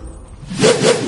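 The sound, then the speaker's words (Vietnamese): A short rushing whoosh of feathered arrows tearing through the air, swelling sharply partway through with a brief whistling edge before trailing off. “3 mũi tên lồng vũ xé gió lao đi, mang theo tiếng rít ghê rợn xé toạc không gian.”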